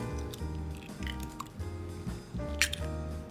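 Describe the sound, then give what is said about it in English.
Faint wet squishing and dripping as an egg is cracked into a slurry of flour, baking powder and water for instant-noodle okonomiyaki batter, soft and irregular over a steady tonal background. “Then after you have that, we will crack in 1 egg.”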